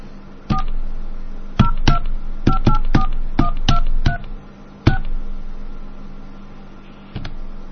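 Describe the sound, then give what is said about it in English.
Touch-tone dialing on a telephone line as a carrier prefix and then a phone number are keyed in. Many short, crisp beeps arrive in uneven clusters over a steady line hum and hiss, and the last tone follows a longer pause. “It's 1010732 and then one and any number. I'll just dial some random number.”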